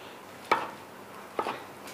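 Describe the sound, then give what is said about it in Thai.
A knife chops brine-preserved Chinese olives (nam liap) into small pieces: two sharp, distinct chops nearly a second apart, followed by a much fainter third hit, with quiet surroundings. “หนำเลียบเนี่ยก็เป็นเหมือนมะกอกของประเทศจีนที่เขาเอามาดองน้ำเกลือรสชาติเนี่ยก็จะมีความมันมีความเค็มเราก็จะต้องสับหนำเลียบเป็นชิ้นเล็ก”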